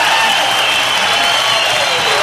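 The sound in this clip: Festival crowd at the 1988 Newport Jazz Festival applauding and cheering for saxophonist Grover Washington Jr., a loud, dense and unbroken wash of clapping with voices cheering throughout, holding steady in level from start to finish.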